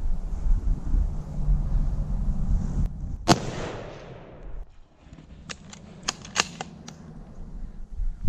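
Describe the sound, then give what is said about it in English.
A single sharp rifle gunshot, fired at a deer while hunting, cracks loudly midway and trails into a fading rumble. A few softer clicks follow over steady low background noise. “Do you feel confident in that shot? Yeah, I see her. Okay, if you feel confident, squeeze off a shot.”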